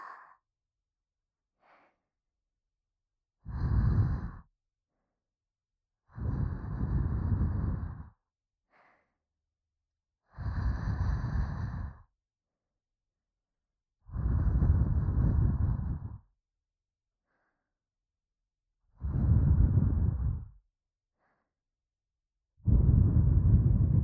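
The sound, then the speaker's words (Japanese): Six strong breathy puffs of air blown at a sleeper to wake them, each lasting one to two seconds and separated by silent gaps, with a few much fainter breaths between. No talking. “起きねばもっとふうふうするぞ。”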